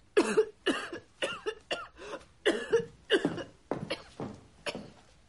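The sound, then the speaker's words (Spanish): A woman coughs in a rapid series of harsh, throaty bursts, each short and separated by brief gaps. The coughs are loud and fairly even in strength, with no other sound between them. “Toses tanto porque te reprimes.”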